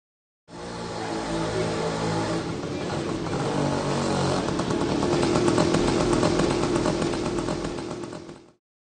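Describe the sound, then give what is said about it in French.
A scooter engine runs in a street during a kite festival in Ahmedabad, India, giving a continuous buzzing, clattering drone for about eight seconds that swells slightly toward the end before cutting off. “I can hear a scooter. J'entends un scooter.”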